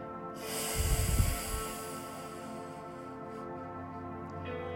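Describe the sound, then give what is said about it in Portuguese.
A breath let out through the mouth during a breathing exercise, a soft airy rush that swells and fades over sustained background tones. “E aí você solta o ar pela boca.”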